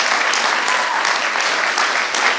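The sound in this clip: An audience clapping during a church service, loud, even, sustained applause from many hands with no voices over it.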